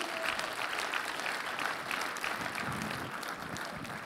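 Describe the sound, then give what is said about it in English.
A church audience applauding, a faint, continuous, even wash of many hands clapping that holds steady from start to finish. “Because when you do, give the Lord a big round of applause.”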